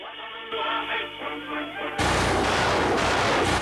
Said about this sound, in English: Missiles are fired.